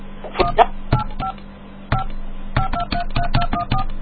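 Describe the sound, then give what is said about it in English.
Telephone keypad DTMF tones as a number is dialed on an AT&T calling line: a loud, rapid series of short electronic beeps in uneven bursts, each a clean dual-pitched tone, over a faint steady background hum. “Please dial the area code and number you are calling.”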